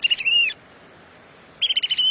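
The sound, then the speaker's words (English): Piercing piping calls of American oystercatchers, crow-sized black-and-white shorebirds, on a tidal shore at Cape May, New Jersey. Two loud bursts of rapid, high whistled notes are separated by a quiet pause. “As the tides fall in Cape May, New Jersey, these American oyster catchers are living up to their name. The crow-sized shorebirds are mostly black and white, except for bright yellow eyes and a long orange bill.”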